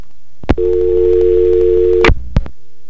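Telephone dial tone after a caller hangs up: a steady, even hum holds for about one and a half seconds, with sharp clicks just before it starts and a couple more right after it cuts off.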